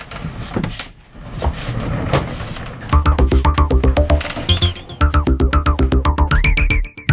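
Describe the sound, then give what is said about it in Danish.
A whole wheeled cabinet is pulled out on rolling wheels. A low rumble comes first, then a loud run of rapid, even clicks and rattles with a humming mechanical whine. “Nu så vi lige løsner vi håndtaget. Og så hiver vi simpelthen hele skabet. Hjulene skal lige dreje rundt med mig.”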